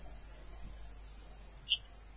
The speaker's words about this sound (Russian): Это у кого-то птички скрипят или что? Да, у меня. Я не могу убрать ласточек. Они безумные.